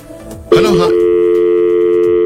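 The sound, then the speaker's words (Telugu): A telephone tone after a disconnected call. The loud, steady, unbroken tone begins abruptly after a brief vocal sound and holds at an even level to the end. “Okay me call disconnect అయిందండి వెంటనే call back చేయండి”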